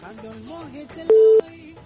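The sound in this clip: A telephone line tone marks a listener's call being connected to a call-in line: one loud, steady, mid-pitched beep lasting about a third of a second, preceded by faint voices.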